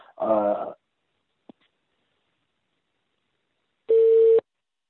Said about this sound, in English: there's a weird beeping noise there